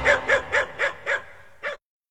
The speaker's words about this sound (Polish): Idziemy z psem na spacer! Idziemy, wychodzimy!